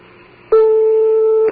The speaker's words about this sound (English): That's a phone ring in Iran, isn't it? The phone is ringing in Tehran right now.